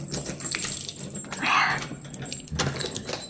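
Keys jangle at a front door with a brief bright metallic burst midway, surrounded by rustling and handling noise.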